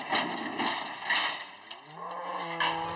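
Cattle lowing, with a calf nearby, in a barn during hoof trimming: a drawn-out, low, tonal moo rises near the end above a rustling, shuffling background.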